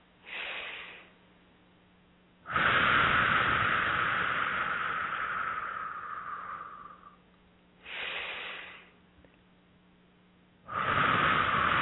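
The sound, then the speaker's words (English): Slow, deep breathing during a guided meditation, drawn in through the nose and let out through the mouth. A short, soft inhale gives way to a long, louder airy exhale, then the pair repeats, with quiet pauses between breaths. “just beginning to take nice, deep, slow breaths in through the nose and out through the mouth”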